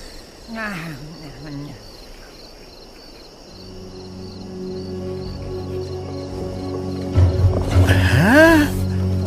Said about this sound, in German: Oh nein! Kopf runter! Da sind zwei Tiger aus Diegos Rudel.